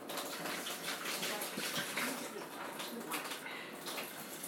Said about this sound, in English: So I'm just going to give this bottle a quick rinse.